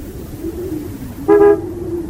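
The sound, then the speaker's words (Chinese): A sedan's horn gives one short toot as the car pulls up in front of a house, briefly rising over a steady low engine rumble. “板垣的轿车开了过来”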